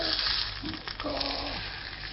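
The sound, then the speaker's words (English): Butter browns in a pan with a faint, steady sizzle and crackle that continues without a break. “And then now I'm going to brown some butter.”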